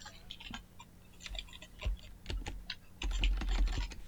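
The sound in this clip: Typing on a computer keyboard: many quick, irregular key clicks at a fairly faint level, with a denser run of keystrokes near the end.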